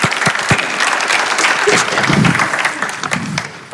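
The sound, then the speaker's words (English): An audience applauds to welcome a speaker on stage, with dense, loud clapping that holds steady and then thins slightly toward the end. “I want you to welcome, put your hands together and welcome a good friend of mine”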